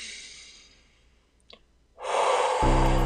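Breath sounds from a guided breathing exercise: a long, airy exhale fades away, then after a brief near-silence a louder, rushing breath sets in and holds steady to the end.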